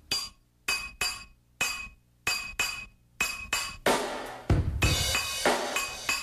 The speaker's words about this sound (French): Bon, il y a la bouteille d'huile. De l'huile extra vierge. Qui veut pas ouvrir. Donne des petits coups de cuillère dessus.